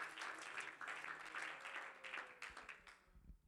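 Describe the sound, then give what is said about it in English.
Church audience clapping hands together during a sermon on the joy of the Lord. The applause is faint but continuous and thins out near the end. “Would you clap your hands to the Lord right now?”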